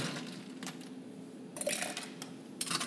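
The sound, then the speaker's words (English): A scoop of ice drops into a metal cocktail shaker tin, making a few bright clattering bursts of cubes striking metal, separated by quieter moments. “All right, so you have everything in a shaker tin. We're going to add a scoop of ice to that.”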